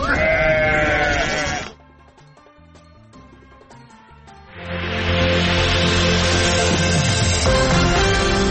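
Sheep and goats of Kuchi nomads' livestock bleating in Kandahar: two loud stretches of overlapping, wavering bleats separated by a quieter gap.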